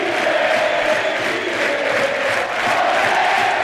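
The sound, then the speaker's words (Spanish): Crowd at a tennis match between players Munar and Martínez cheering and shouting in reaction to play, a continuous loud roar with rhythmic, chant-like pulses running through it. “Excepcional ahora la reacción del público.”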